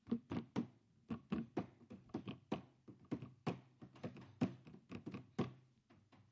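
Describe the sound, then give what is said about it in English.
Hands bang rhythmic beats on a school desk: many sharp, hollow thumps in a quick, syncopated pattern, some landing in tight doubles. No voices. “It drove the teachers nuts, okay? Because we were banging on the desk. We were making beats.”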